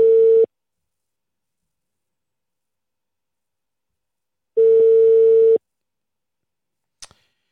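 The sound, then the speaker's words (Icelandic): An unanswered telephone call signal sounds as two steady mid-pitched tones separated by about four seconds of silence. A brief faint click comes near the end. “í síman fer ég og hringi Þóraldan”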